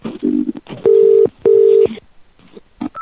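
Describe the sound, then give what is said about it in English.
A telephone rings twice in quick succession: two short, buzzing tones of equal length and steady pitch, with brief faint sounds before and after them. “I like part of the show where the phone rings. When the phone rings.”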